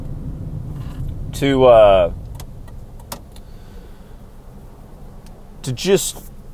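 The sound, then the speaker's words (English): Steady low road rumble inside a truck driving into town, with a voice talking over it in short bursts. “I got to keep myself occupied during these truck rides into town.”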